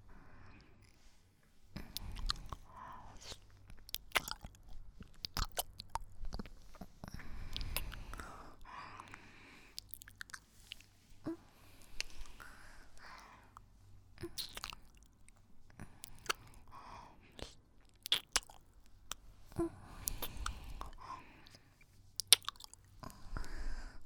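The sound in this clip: Strawberries being chewed, soft and wet, with many small squishy smacks and clicks spread unevenly across a long, quiet stretch, with no speech.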